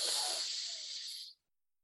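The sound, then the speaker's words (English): A slow inhalation through the left nostril during alternate nostril breathing: a soft, steady airy hiss lasting just over a second, then silence. “Inhale through the left,”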